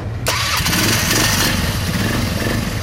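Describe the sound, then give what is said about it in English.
ATV engines rev on desert trails in a valley with petroglyphs about 60 miles north of Las Vegas. A loud, continuous buzzing engine drone starts abruptly just after the beginning and holds steady throughout, with no voices. “The Indians are gone now, but locals have loved riding their ATVs here for a long time. Recently, that was made legal.”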